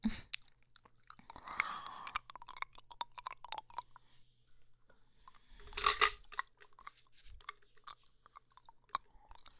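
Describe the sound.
Someone chews a pill, making many short, faint crunching and biting sounds in bursts with quiet gaps between them.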